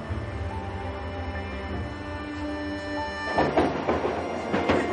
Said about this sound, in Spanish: En un vagón de metro